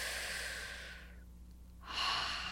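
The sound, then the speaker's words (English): Breathing during a guided tapping exercise: a long, soft breathy rush, a short pause, then a second breathy rush, steady and alone with no talk. “Good, take a breath.”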